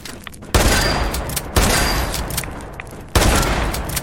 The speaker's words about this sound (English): I'm gonna have to shotgun these things.